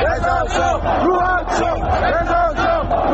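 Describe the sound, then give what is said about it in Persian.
Angry football fans in Isfahan chant slogans together, a loud, rhythmic crowd chant of many voices repeating the same phrase in a steady cadence. “تماشاگران عصبانی اصفهانی که به این درخواستشون احترامی گذاشته نشد در ادامه شعار رضا شاه روحت شاد سر دادن.”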